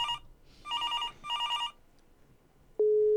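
A telephone rings for a call to a radio show: three trilling bell bursts, the first cut short, then a pause before a loud, steady electronic tone holds to the end.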